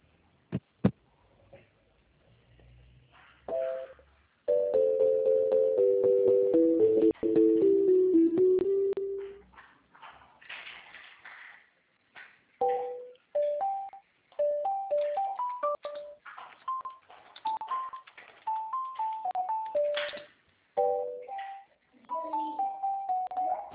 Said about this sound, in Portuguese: Um momentinho, eu vou transferir, tá?